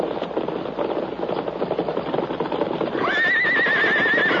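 A riderless horse arrives with continuous hoofbeats clopping in a brisk rhythm, then lets out a loud, wavering whinny over the hooves near the end.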